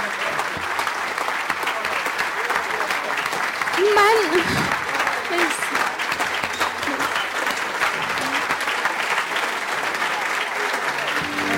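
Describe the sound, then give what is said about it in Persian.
Long, steady audience applause in honour of a performer, a dense, continuous clatter of many hands that barely varies in level, with a voice briefly rising above it near the middle. “به افتخارش ما دست بده.”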